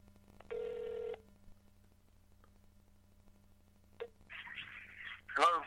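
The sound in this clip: A phone places an outgoing call: a steady electronic tone sounds briefly, then after a quiet pause a buzzing ringback tone follows, all faint.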